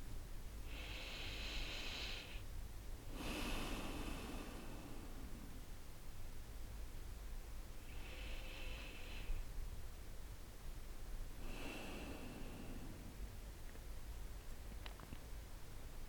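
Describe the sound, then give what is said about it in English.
Deep breathing during a guided meditation: a few slow, soft, airy breaths spaced several seconds apart, separated by quiet stretches over a faint steady hiss. “So we'll take a couple of deep breaths and get present.”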